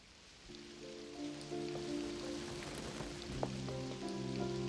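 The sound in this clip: Steady rain falls in a scene facing the Statue of Liberty: a soft, even hiss that swells after the first half second, with sustained low tones running beneath it throughout.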